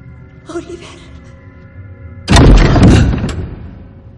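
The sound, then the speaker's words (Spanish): Something pushes against a wooden door with one heavy, booming thud, which rings out and decays over about a second after a quieter lead-in. “Algo empuja la puerta.”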